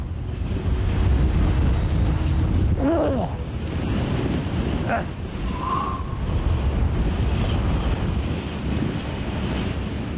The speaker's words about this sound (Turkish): Evet, orada değişik bir rüzgar var.